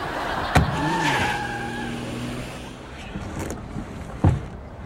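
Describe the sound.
A car speeds away with a revving engine roar. Sharp thumps come near the start and the end, and some voices are mixed in.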